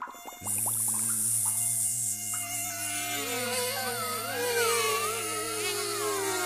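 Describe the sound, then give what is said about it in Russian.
Huge mosquitoes flying and buzzing, a dense, continuous drone of several overlapping whines whose pitch wavers up and down, loud and steady throughout with no talk. “видит, летят комары громадные. Это шприцы, кровопийцы, про которых Толик рассказывал. Летят они, между собой переговариваются, решают, кого первого кусать.”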